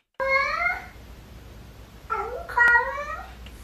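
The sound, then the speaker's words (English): A cat meows loudly and clearly, first with one drawn-out call and then, after a pause, with a two-part call that resembles a spoken 'hello'. “it really does sound like this cat says hello”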